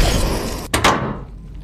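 A capsule hatch closing: a dense hissing rush breaks off for an instant, then a short, hard thud-like burst follows and slowly fades toward quiet.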